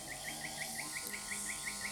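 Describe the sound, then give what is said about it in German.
Bird chirping in a jungle café, with about eleven short, evenly spaced high chirps repeating over a soft, constant background bed. “Ein Café mitten im Dschungel. Ein Vogel.”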